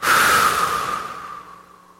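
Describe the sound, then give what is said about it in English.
A deep breath taken during a guided group breathing exercise: one broad, airy rush of air that starts strong and fades gradually over about two seconds, with no talk. “Let's take a collective breath together. Ready? Inhale. And let it out.”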